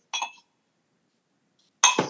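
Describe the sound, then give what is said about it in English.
A cork pops from a bottle: two brief bursts separated by silence, a light glassy clink and then a fuller, sharper pop with a low thump beneath it. “This little cork pop there.”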